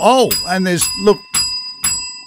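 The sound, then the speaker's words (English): Bright bell rings mark each $1,000 donation during a Visionathon charity appeal; a few sharp, ringing strikes with long, high sustain follow a voice at the start. “There's a lot of bells. Yeah. Every time there's a bell, that means another $1,000 and another step.”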